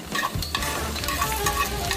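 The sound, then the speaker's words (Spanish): Onion sautés lightly in melted butter in a pan, giving a steady, moderate sizzle with soft scraping and stirring sounds mixed in, heard alone without any talk. “Calienta 2 cucharadas de mantequilla y sofríe ligeramente la cebolla.”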